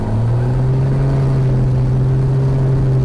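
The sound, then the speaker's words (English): A small airplane's engine at full throttle during its takeoff roll down the runway at Hartford's Brainard Airport, a loud, steady droning roar with a constant pitch throughout. “And now when it's up to full throttle, we're racing down the runway, and we're taking flight.”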